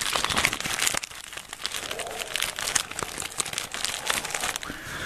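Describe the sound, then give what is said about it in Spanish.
Crackling of a small paper fire, with many irregular, dry snaps and crinkles over a steady rustling bed, fairly quiet throughout and with no voices. “Más fueguito. Este es un fueguito de papel chiquito.”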